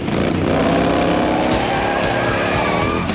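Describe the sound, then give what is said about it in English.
Harley motorcycles ride off from a line-up on a road, producing a loud, dense, continuous engine roar with a steady, throbbing drone throughout and no voices. “Del Fuego's spot the Wild Hogs lined up on the road on their Harleys. Now! Holy crap, it's the golden night! Woody and Bobby ride off.”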